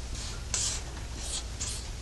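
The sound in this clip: A diagram being drawn by hand makes a few short, scratchy strokes separated by brief pauses, over a steady low background hum.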